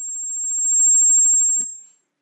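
One long, steady, high-pitched electronic beep holding at a flat tone, cut off by a brief click near its end before fading to silence.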